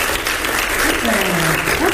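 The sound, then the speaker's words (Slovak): Game-show studio audience clapping, a brief, loud burst of dense applause lasting about two seconds with a voice faintly audible through it. “Máte 20 bodov hneď a teda aj tlieskajú vám okamžite.”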